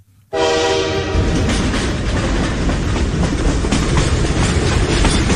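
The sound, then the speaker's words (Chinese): A train runs on rails, a dense rumbling roar with rapid clattering that starts abruptly and holds steady and loud, opening with a brief tonal horn-like note. “于是他立即打点行装，踏上了前往北京的列车。”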